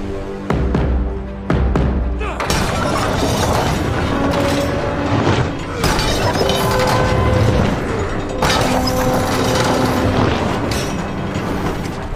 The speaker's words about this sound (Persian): تاماکتی ماگرا رو دور میکنه و به محض رفتنشون یه بمب همونجا فرود میاد، منفجر میشه.